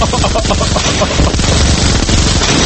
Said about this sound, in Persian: آقا این چیه پخش میکنی؟ کلت آقا این خوبه، این خوبه، آه این اسنایپره، این کلت